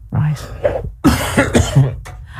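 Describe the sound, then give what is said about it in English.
A tickly cough: a few short, harsh, throaty coughs in quick bursts, mixed with voiced sounds. “I have had a tickly cough all week.”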